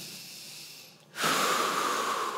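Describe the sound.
A deep breath drawn in: after a brief lull, a sudden airy rush of intake swells and holds steady to the end, preceded by a faint soft hiss.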